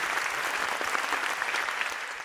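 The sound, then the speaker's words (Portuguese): Dense audience applause, an even, steady clatter of many hands that holds at the same loudness for the whole clip without any single voice standing out. “Boa. Palmas.”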